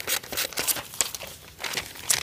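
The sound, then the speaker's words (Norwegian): Paper cut into a ring is folded into triangles to make a snowflake: crisp crinkling and rustling in several short bursts, fairly faint and alone. “Her har jeg klept ut en ring fra før av. Og den skal jeg brette. Og brette er bare akkurat som jeg vil, liksom. I trekanter.”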